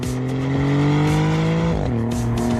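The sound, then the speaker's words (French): A Maserati GranTurismo Trofeo coupé, the second generation with a twin-turbo V6, gives a steady, loud, humming engine drone that drops in pitch near the end as the revs fall. “C'est vrai qu'il sonne bien ce V6.”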